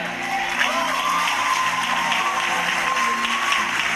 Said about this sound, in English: Yeah, he's clapping for the church